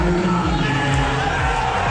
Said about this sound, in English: Not booing the Knicks as they lost to the San Antonio Spurs, but Donald Trump.